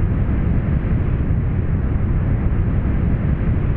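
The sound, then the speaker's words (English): Deep, sustained rushing roar of a big whoosh sound effect animating a space scene, a dense low rumble that holds steady throughout with no talk. “And then to kind of further animate this whole scene that we're setting, there's these great big whooshes, like”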